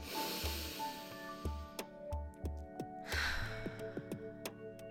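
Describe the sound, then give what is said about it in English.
A deep breath taken at the start of a guided moment, a faint airy hiss of inhaling and exhaling over soft, regular low pulses. “Let's take a deep breath.”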